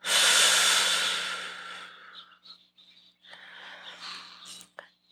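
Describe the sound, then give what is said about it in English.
A slow exhale during a guided breathing exercise begins as a loud, breathy rush of air and tapers off over a couple of seconds. Faint, soft hissing breaths follow. “One more inhale. Four, three, two, exhale.”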